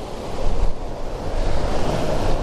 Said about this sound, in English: I've got a little bit of a waterfall as well, so I need to get down there really